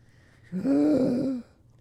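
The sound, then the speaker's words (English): A single deep breath released as a low, voiced sigh lasting under a second, rising quickly, holding steady, then cutting off into quiet. “Deep breath.”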